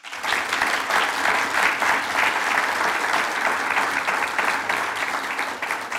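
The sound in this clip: An audience applauds to welcome two speakers, with steady clapping throughout. The applause holds at an even, full level from start to finish and has no breaks.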